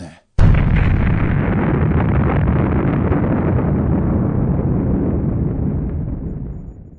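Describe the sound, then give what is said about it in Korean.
A bomb-drop explosion sound effect: a sudden loud blast followed by a heavy, rumbling roar that holds for several seconds and then slowly dies away. “자 폭탄 투하 완료.”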